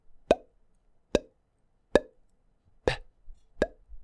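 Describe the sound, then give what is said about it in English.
A mouth imitates a kick drum with curled lips, giving five soft, wet plops that are separate and fairly evenly spaced. Each has a short, dull low tail, and the effect is weak and unpunchy rather than bassy. “What I don't want you to be doing is curling your lips and making this sound.”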